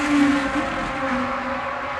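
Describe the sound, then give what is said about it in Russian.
A race car speeds past with a loud, steady roar of engine and road noise that holds at an even level for the whole stretch, with no breaks. “В это время мимо него промчался Карбонейтер.”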